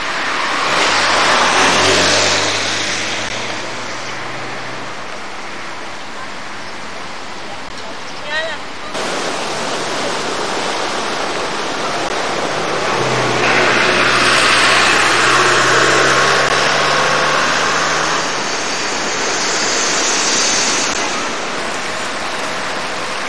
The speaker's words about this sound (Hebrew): זרימה אדירה בקישון